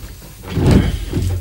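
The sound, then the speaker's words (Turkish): A large painting being lifted down from a wall, heard as a low scrape and dull knocking of the frame that swells to a heavier bump midway, then a softer thud near the end, with no talking. “Şu büyük tabloyu indirir misin oğlum?”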